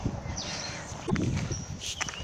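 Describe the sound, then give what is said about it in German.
Footsteps of someone walking up the Eschenberg, a 726-metre hill: a few soft, irregular steps over a steady noisy background. “Der Berg, den ich hier gerade hochkeuche, ist der Eschenberg, 726 Meter hoch.”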